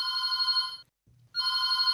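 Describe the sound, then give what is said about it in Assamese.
Telephone bell ringing for an incoming call on a radio phone-in programme: two loud, bright ringing bursts separated by a short silent pause. “Phone in গানে গানে অনুষ্ঠানৰ ফোনতে phone কলটি লওঁ।”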